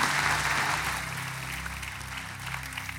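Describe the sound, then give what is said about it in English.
Church audience applauding to welcome a pastor back, heard across the church's campuses: dense, steady clapping that fills the whole clip, loud at first and easing slightly toward the end. “would you put your hands together and would you welcome back to our church, Pastor Spence Shelton.”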